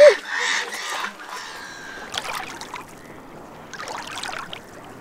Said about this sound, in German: fürchtet sich vor den Enten und Möwen